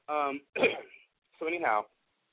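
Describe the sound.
Throat clearing from a person with a dry throat, a few short, voiced, rasping bursts separated by brief pauses.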